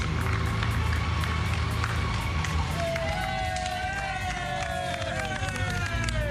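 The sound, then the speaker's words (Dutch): A street crowd in a shopping street in Dongen claps and applauds as a car drives through, a steady wash of clapping with cheering voices and shouts rising above it. “Waar al behoorlijk wat geapplaudisseerd en geklapt wordt.”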